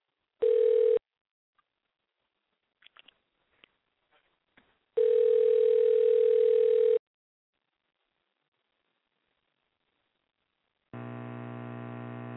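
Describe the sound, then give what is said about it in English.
A telephone dial tone is followed by a number being dialed: a brief steady tone, a scatter of faint clicks and beeps, then a longer steady tone, and after a silent pause a lower, buzzier tone. “Let me make sure I got this number right so I can call him up and tell him I love him.”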